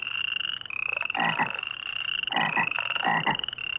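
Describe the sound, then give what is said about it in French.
A group of frogs croaking loudly, a continuous high trill running throughout with repeated throaty croaks bursting over it in clusters. “Mais ceci est de courte durée car elles sont soudain réveillées par un vacarme assourdissant. Un groupe de grenouilles coasse à gorge déployée.”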